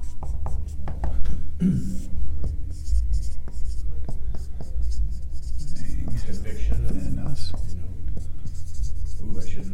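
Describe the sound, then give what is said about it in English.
Pen scratching on paper as notes are written down, a long run of many short rubbing strokes over about ten seconds, with quiet voices talking underneath. “Let's write all this down.”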